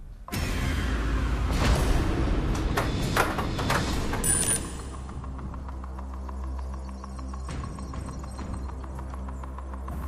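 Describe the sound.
The Drop Zone machine on the Tipping Point game show runs loudly with rumbling and clattering for several seconds as counters drop, then settles into a steady mechanical hum with occasional clicks.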